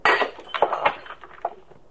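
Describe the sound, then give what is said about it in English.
A drinking glass knocked out of a hand breaks: a bright crash, then a few quick tinkling clinks that fade away. “Now, you shouldn't have knocked it out of my hand. Now it's broken. Isn't that a shame? Here go your fingerprints.”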